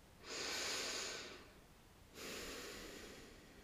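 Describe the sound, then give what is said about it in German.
A deep breath during a guided meditation, drawn in and then let out as two long, soft, airy rushes separated by a short pause, with no talk. “Schenk dir dafür mal einen tiefen Atemzug ein und aus.”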